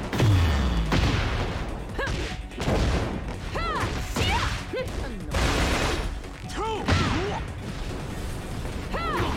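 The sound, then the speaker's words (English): Video game gunfire as a character shoots: many sharp shot bursts layered with mechanical clanks and crashes in a dense, loud stretch of game sound. “Oh my god, she just shot the hell out of him.”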